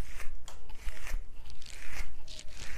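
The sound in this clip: Scratchy rasps of a comb pulled through short, faded hair that had been sponged, with many crisp strokes in an irregular rhythm and no talking.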